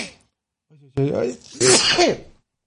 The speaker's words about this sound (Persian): ببخشید، مرسی که گفتید God bless you.